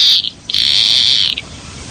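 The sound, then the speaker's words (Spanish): Call of a wild bird heard in the countryside in summer: a shrill, high, buzzing whistle. A brief burst is followed after a short pause by a longer sustained note of nearly a second, heard alone. “ese es el sonido de un ave”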